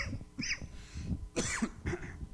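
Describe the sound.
Coughing from a tickle in the throat comes as a few short, hoarse, breathy coughs with brief gaps between them, fairly quiet.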